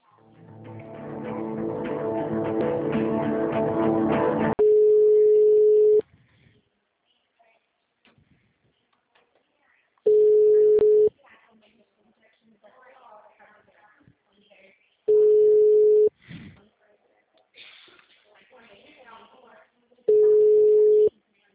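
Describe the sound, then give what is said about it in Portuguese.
Telephone line tones during a call transfer: a loud burst of sound on the line gives way to four steady, evenly spaced beeps, each about a second long, with faint line noise between them. “Eu vou estar tentando te transferir, tá?”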